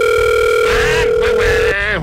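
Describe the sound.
A phone call ringing out, heard as a steady, mid-pitched ringback tone that holds for nearly two seconds under overlapping talk, then cuts off.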